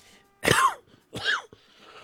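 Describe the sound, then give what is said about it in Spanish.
Two short, harsh coughs from a person with a slight cough. They are separated by a brief pause and are otherwise quiet, with no talk. “Disculpen, pero ando con un poquito de tos.”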